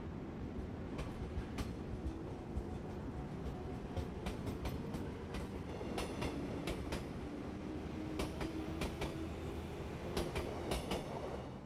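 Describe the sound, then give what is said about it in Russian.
A train departing from a station gives a faint, steady rumble of rolling wheels and many sharp, rhythmic clicks, bunched in places. “Наш поезд отправляется на станцию Уцуномия.”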